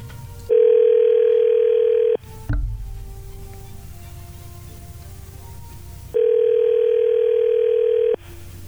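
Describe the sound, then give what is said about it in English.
Telephone ringback as a call is placed: two long, steady tones of about two seconds each, separated by a gap of roughly four seconds filled with faint line noise and a short click. “We're dialing her up right now.”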